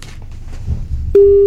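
A telephone ringback tone sounds as a radio host calls a listener: low, muffled background noise gives way to a loud, steady single tone that holds to the end.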